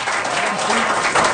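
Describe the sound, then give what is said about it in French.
Audience applause greets Robert Lepage on a talk show: a loud, steady wash of clapping that holds for the whole short moment without a break. “Nul autre que M. Robert Lepage, qu'on applaudit.”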